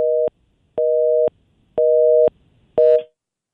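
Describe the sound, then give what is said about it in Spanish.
A telephone busy tone after a call is cut off: four evenly spaced beeps at a steady mid pitch, each about half a second long with a pause between, the last one clipped shorter. “se le fue ahí, o se le acabó la llamada, o se metió en un túnel, o se le fue la señal. Algo pasó.”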